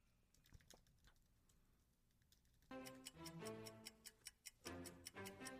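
Typing on a keyboard: sparse soft key clicks at first, then a louder, busier stretch of quick clicking over steady ringing tones.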